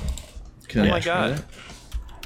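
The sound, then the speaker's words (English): Light clicking of a computer keyboard as someone types a search, quick taps running beneath a person talking. “in the new Windows, you can just type the Windows key and look it up and hit enter”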